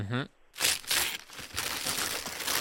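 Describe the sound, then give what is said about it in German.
Gift wrapping paper tears and crinkles as presents are unwrapped. A brief voice comes first, then several bursts of sharp paper rustling and ripping run to the end. “Da werden Geschenke ausgepackt.”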